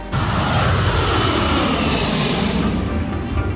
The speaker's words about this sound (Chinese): 一架美军 C 十七运输机正从机场起飞